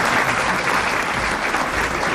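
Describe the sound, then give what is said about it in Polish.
An audience applauds award winners at a reportage prize ceremony, with thick, continuous clapping at a steady, fairly loud level throughout. “Wielkie brawa dla nagrodzonych.”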